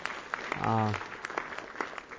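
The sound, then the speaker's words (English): A round of applause for a man being thanked, heard as scattered, fairly faint claps at an uneven rhythm, with a brief voice rising near the start. “Can we give a round of applause to this man?”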